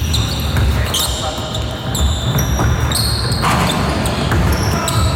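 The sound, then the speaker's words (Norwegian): Sharp, high rubber shoe squeaks on a basketball court in a sports arena ring out in short bursts over a dense, steady wash of crowd noise. “Det er basketbane. Det er jo lyden av en idrettsarena. Ja, det er basket spesifikt, og det er jo den der skvikelyden jeg er ute til.”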